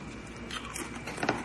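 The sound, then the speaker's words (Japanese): Crunching of sour cream and onion Pringles crisps, a few crisp bites and chews over a steady hissy background, fairly faint. “幼児が持ってきたプリングルスサワークリーム&オニオン食べてます。”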